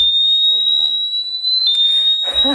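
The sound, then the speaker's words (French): A bicycle anti-theft lock alarm sounds as the bike is moved, a piercing, continuous high-pitched electronic tone holding steady while people talk over it. “Hop, on verrouille l'antivol. Il est sur le vélo. Il bouge plus, il va s'initialiser. Et à partir du moment où je le bouge, je manipule. Une première alerte. Et si je continue?”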